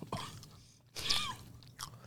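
Wet, smacking chewing on a piece of mango comes in a few soft, squelchy bursts separated by brief quieter pauses.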